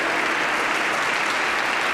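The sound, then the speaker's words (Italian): A concert audience gives sustained, even applause for the Bonporti chamber choir from the Trento conservatory, a dense wash of clapping with no pauses. “lo vorrei un po' più forte, però l'applauso per il coro da Camera Bonporti, bravissimi questi ragazzi,”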